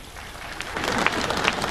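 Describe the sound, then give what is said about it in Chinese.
Audience applause at a live comedy stage show: a brief burst of clapping that starts softly and swells into dense, steady hand claps with no talk over it. “你对得起这么热情的观众吗？你对得起这么热烈的掌声吗？”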